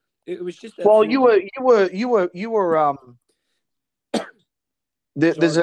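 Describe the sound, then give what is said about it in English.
A single short, sharp cough from someone recovering from COVID, set between stretches of a person talking. “sorry about the cough, everyone. I'm just recovering from COVID, so if it comes off that I'm coughing a bit.”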